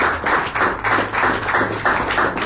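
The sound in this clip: Loud clapping in a steady, even rhythm, several sharp claps in quick succession with no pause.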